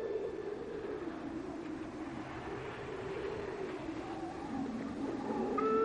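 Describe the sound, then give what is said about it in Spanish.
An approaching train belching a dense column of smoke, heard as a steady rumbling hiss with a low droning hum that grows gradually louder toward the end. “Gira hacia un tren que se acerca expulsando una densa columna de humo.”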